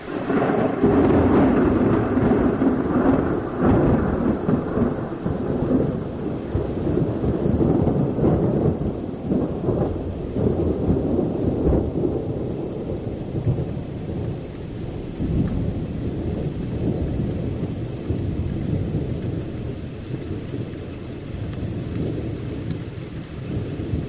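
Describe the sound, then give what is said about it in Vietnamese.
Heavy rain pouring outside and blowing into a room: a dense, unbroken hiss of rainfall with a low rumble underneath, loud and steady throughout, with no voices. “ngoài trời đang đổ mưa, mà nước mưa còn hắt cả vào trong phòng, quất thẳng vào mặt của cô.”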